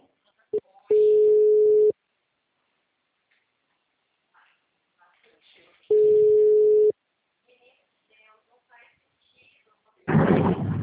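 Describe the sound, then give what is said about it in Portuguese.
A telephone call signal as an outgoing call is placed: two long, steady single-pitched tones about five seconds apart, with faint murmurs between them, ending in an abrupt loud burst of noise. “Uma ligação, tá?”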